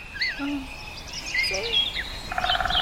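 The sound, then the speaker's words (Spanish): A bird singing in the early morning in Bogotá, several short, high chirps and whistles scattered over a steady background hiss, with a quick run of repeated notes near the end. “no hay nada más hermoso que despertar con un gorrión o algo así que está cantando ahí de fondo”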